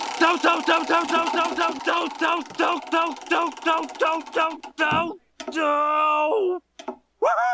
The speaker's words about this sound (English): Alrighty, let's give it another spin to see which episode we are a watching.